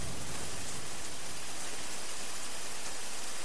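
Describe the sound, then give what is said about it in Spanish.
Steady rain: a dense, even hiss of falling water with no pauses or changes in loudness throughout. “parece que va a llover”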